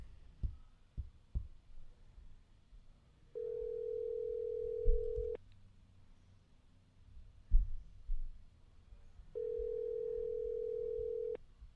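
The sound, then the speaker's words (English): A telephone tone sounds while a call is dialed: two long, steady, buzzing tones separated by a pause of several seconds, with faint low rumbling and a few soft thumps in between. “We're dialing Jessica now. See if we can reach her.”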